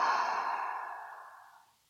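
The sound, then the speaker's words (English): A single deep breath is exhaled through the mouth as part of a calm breathing exercise. The breathy sigh is soft and starts strongest, then fades smoothly over about two seconds and trails into silence. “take one more deep breath in and out by mouth.”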